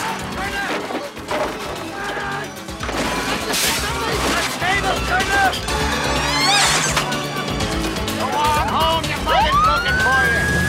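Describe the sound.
Police car siren wailing during a chase as a car careers along bumpy streets and the pavement, heard in a loud, dense mix of engine and action noise, with a clear rising tone near the end.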